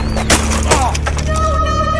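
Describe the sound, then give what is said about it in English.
A bike crashes in a Grand Theft Auto video game: two sharp, crunching impacts come early, followed by lighter clattering over a steady tonal game background. “I just lost control of my bike and crashed.”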